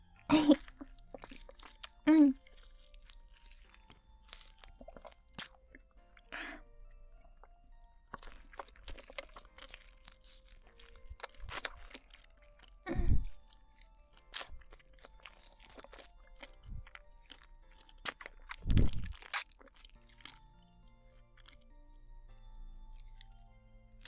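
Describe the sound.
Crunching and chewing of crunchy cold food, a few loud bites scattered among quieter mouth sounds and soft chewing, with occasional brief vocal sounds.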